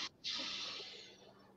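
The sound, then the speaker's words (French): Slow, deep inhale during a guided breathing exercise: a short puff of breath, a brief pause, then one long, soft, airy hiss of drawn-in air that fades gently toward the end. “On le fait une fois, on inspire.”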